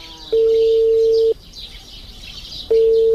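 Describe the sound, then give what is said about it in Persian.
Ringback tone of a phone call going unanswered: two steady, mid-pitched tones, the first lasting about a second, separated by a longer pause, loud over faint high chirping in the background. “زنگ تیر میکنه خود جواب نمیته.”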